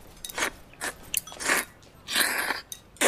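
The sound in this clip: Chewing and biting as someone eats noodles in an extra-sour sauce, a series of wet, crunchy bursts of moderate loudness separated by short pauses, with no talking.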